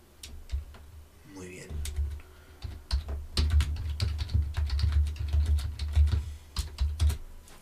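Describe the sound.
Typing on a computer keyboard while entering a city and location in a game: many rapid, irregular key clicks in bursts, fairly faint, over a low rumble.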